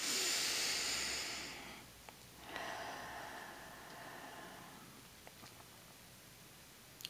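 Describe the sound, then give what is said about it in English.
Deep breathing during a short meditation: one long, loud airy breath, then after a brief pause a second, softer and longer breath, with no talk. “So, deep breath in and out, just because we want to get ourselves a little bit centered.”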